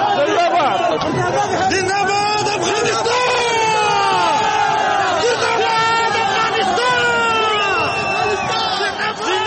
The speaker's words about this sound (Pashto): کرکټ د تاریخي بری په خوشحالۍ کې ژوندی دی افغانستان شعارونه ورکوي.